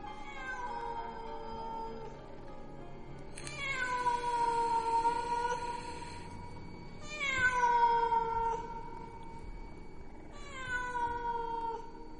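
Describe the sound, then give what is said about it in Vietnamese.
A stray cat yowls in three long, wavering calls, each one sliding downward in pitch. The cries are loud and stand alone, with no talk. “cảm giác như có tiếng con mèo hoang, nó cứ kêu gào ở bên tai.”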